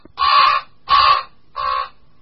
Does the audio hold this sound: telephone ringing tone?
no